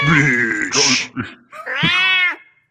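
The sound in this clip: Cat cries: a long, rough, strained yowl, then a shorter, clearer meow that rises and falls in pitch, with a brief gap between them.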